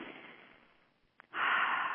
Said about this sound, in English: Take a deep breath